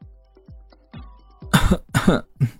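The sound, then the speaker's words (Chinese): Coughing from a man who has just choked, three harsh coughs in quick succession, preceded by a few faint low sounds. “乔俊被呛了一下，咳了几声”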